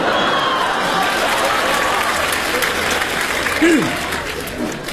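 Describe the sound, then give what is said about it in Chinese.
Sustained applause from an audience at a live stage variety performance, dense, steady clapping that stays loud throughout with voices mingled in the crowd noise. “郭金杰上来听听咱这掌声”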